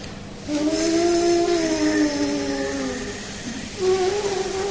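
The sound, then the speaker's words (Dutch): Buzzing lip tone made by pressing exhaled air out through the lips, as when blowing a trumpet: one long buzz that sags slowly in pitch, then a brief pause and a shorter second buzz near the end. “tegendruk die wordt ook gegeven wanneer je uitademend gaat persen door je lippen heen. Bijvoorbeeld bij je trompetten. Wanneer je trompet blaast.”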